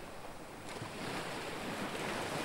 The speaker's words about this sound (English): that the repeating nature of the waves is so soothing